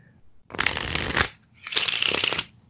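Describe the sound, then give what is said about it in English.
A pack of playing cards is shuffled in two dense, crackling riffles, each lasting under a second, separated by a short pause. They are loud and heard alone. “you could give it 8 of these shuffles. Somebody would then be, I think, 100% certain that the cards were mixed”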